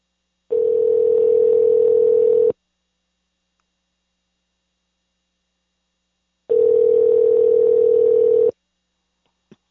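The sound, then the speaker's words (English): A telephone tone plays as a call is dialed out to a guest: two long, steady mid-pitched tones of about two seconds each, separated by a long silent gap and followed by a tiny click. “We're going to dial him down.”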